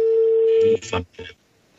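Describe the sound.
A steady telephone dial tone holds for about three quarters of a second, then cuts off and is followed by a couple of short bursts as a call is placed.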